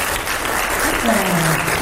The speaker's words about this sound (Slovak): Máte 20 bodov hneď a teraz aj tlieskajú vám okamžite.